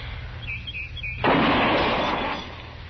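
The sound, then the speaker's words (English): A single loud gunshot rings out as a newly repaired gun is test-fired from a rest on a fence rail, and its sharp crack trails off into a fading rumble. Faint bird chirps precede the shot. “Yeah, it's hitting where it's aiming, all right. I guess Andy got the kink out of it. He always does. Takes old Andy a month of Sundays to fix a gun, but once it's done right. Yeah. Well, there's no point in burning up any more ammunition.”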